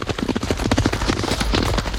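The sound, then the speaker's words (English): Two horses galloping past on a racetrack, their hooves drumming in a quick, loud, uneven rhythm of thudding beats that carries across the whole stretch. “As Channing comes over to Stripes, two horses gallop past. They both watch the horses.”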